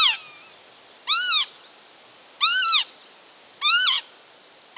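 Northern lapwing calling: three loud, wheezy cries, each sweeping up and then down in pitch, spaced about a second apart against faint background hiss.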